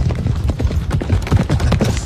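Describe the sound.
Horse hooves clip-clopping as a sound effect: a quick, unbroken run of hollow knocks at steady volume, many beats packed into about two seconds, with no voices.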